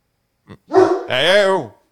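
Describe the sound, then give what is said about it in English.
Dogs barking at home: a few loud, quick barks in a short burst, the last drawn out into a longer, wavering yelp. “I'm yelling at my dogs because they won't stop barking because they're dogs.”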